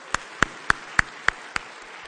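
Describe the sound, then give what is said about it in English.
Congregation clapping hands in praise during a worship service: six sharp, evenly spaced claps in a steady rhythm, loud against a quiet background. “Let's give him a hand clap of praise.”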